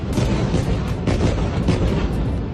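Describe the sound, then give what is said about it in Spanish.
Bombs fall and explode on Gaza in a dense, loud, rumbling barrage of booms that rolls on without a break. “Este no es, evidentemente, el sonido del alto el fuego. En las últimas horas, las bombas han seguido cayendo sobre Gaza.”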